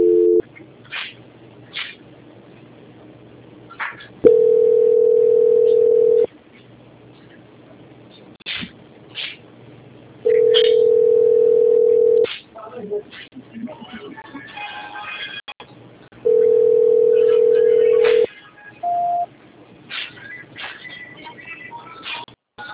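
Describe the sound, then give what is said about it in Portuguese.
Telephone line tones while a call is being transferred: three long, steady mid-pitched beeps of about two seconds each, separated by quieter stretches of line noise and faint clicks. “vou tentar transferir de novo para a auditoria, porque caiu a ligação, tá bom?”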